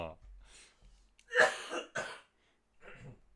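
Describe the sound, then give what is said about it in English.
Harsh coughing and throat clearing: a few loud, rough bursts close together, then a pause and a softer breathy sound. “Oh, pardon me. I'm starting to cough myself to death.”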